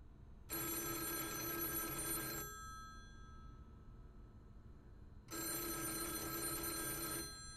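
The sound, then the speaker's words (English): A forlorn payphone on Cherry Street in Columbia, Missouri, rings in the middle of the night with two long electronic bell rings, each about two seconds, separated by a quiet gap of roughly three seconds. “Now we bring you this, the story of a forlorn payphone in Columbia, Missouri, that rings in the middle of the night.”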